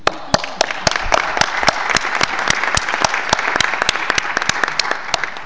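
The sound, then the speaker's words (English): Conference attendees applaud at a pledging conference after a funding total is announced. Many crisp individual hand claps ring out in a lively, uneven rhythm over a bed of general clapping. “So, the total pledge today for all years is US$1,503,000,000. I think this earns an applause.”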